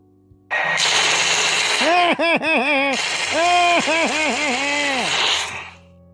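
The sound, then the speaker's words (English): Tommy gun machine-gun fire: a loud, sustained rapid rattle lasting about five seconds, with a wavering tonal whine pulsing through the middle of the burst. “Well, go get the Tommy gun.”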